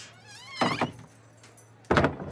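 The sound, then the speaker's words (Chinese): A small shop's door is shut and locked: a thin squeak is followed by two solid clunks, the second a sharper, louder bang. “我先把门锁了啊，小店怕遭贼。”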